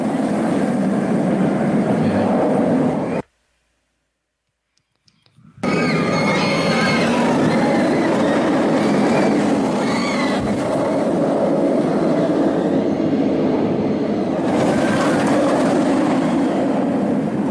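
Ride noise from the Nemesis roller coaster, a looping, twisting ride with dangling feet, rumbles and rattles loudly and steadily along the track. It cuts out to silence for a couple of seconds midway, then the dense roar resumes to the end.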